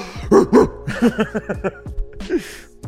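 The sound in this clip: A person imitates a dog barking, producing a quick string of short, yappy vocal barks with breathy gasps between them, loud and with no other sound.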